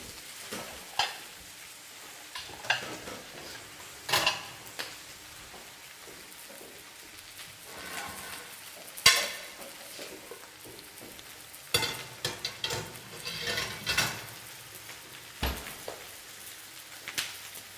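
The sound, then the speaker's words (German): Quail eggs sizzle as they fry in a pan, a quiet, steady crackle broken by many sharper pops and spits. “Dann noch ein Highlight, die Wachteleier hier anzubrutzeln.”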